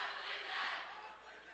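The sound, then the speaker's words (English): A packed crowd at a college basketball game at Jefferson College, a fairly faint, steady roar of many voices and cheering that swells slightly midway. “A packed crowd here at Jefferson College.”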